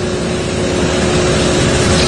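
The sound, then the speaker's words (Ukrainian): Steady engine rumble of tow trucks hauling wrecked, smashed cars away from residential buildings at a strike site in the capital. A continuous, even, loud noise with no break and no voices. “Свята просто зараз із під сусідніх будинків почали вивозити автомобілі, їх відтягують спеціальними тягачами, ці машини потрощені вщент.”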